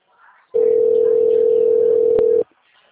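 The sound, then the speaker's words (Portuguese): A WhatsApp call ringing tone: a single steady, loud, mid-pitched tone that holds for about two seconds, then stops, with only faint background noise before and after. “Eu ligo no WhatsApp normal. Chama normal.”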